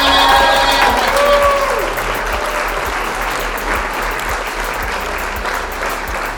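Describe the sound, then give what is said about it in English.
An audience applauds loudly to welcome a guest, with dense, sustained clapping and some crowd noise that eases slightly but continues to the end. “put your hands together and give a warm welcome to Johnny Aaron.”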